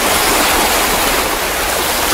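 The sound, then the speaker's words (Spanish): Sea waves breaking, heard as a loud, steady roaring rush of water that stays even and unbroken throughout. “Del 1 al 10, el oleaje del mar.”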